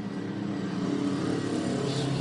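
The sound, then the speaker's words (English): Race car engines roar as cars pull away at the start of a race, with a Porsche among the field, making a dense, loud and steady engine drone throughout with no talk. “But off and away already for AO Racing's Roxy as the 77 roars off. Just behind it, the Magti Porsche.”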